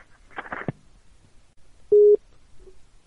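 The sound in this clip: Telephone busy tone after a call is hung up: one loud, steady mid-pitched beep, then a shorter, fainter repeat, with quiet line noise around them.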